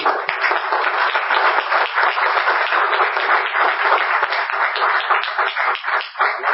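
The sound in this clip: Applause from an audience at a talk by a social entrepreneur, a continuous wash of many clapping hands that stays loud throughout and dips briefly near the end.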